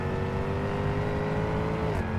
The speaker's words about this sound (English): Start the engine with a simple push of a button, and suddenly it's just you and 575 horsepower.